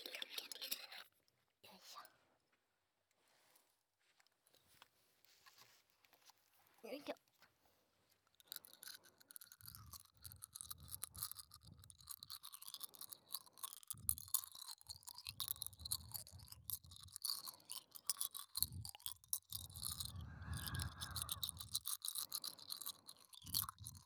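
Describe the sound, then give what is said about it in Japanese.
Close crunching of hard candy between the teeth. Soft whispering in a quiet opening gives way to many dry, crackling crunches that grow denser and continue to the end. “うん、お兄さんは飴って噛むタイプ？うん、私はね、噛んじゃう。”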